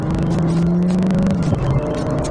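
Engine drone from a manual-transmission car being driven, a loud, steady hum whose pitch dips briefly past the midpoint before settling lower.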